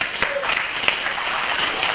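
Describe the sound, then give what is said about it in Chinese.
Classroom clapping as students applaud classmates, a dense, even wash of many hands that holds steady throughout, with a few sharper claps standing out. “好，这些人啊，我们他们呢动作很迅速，我们给他拍拍手。”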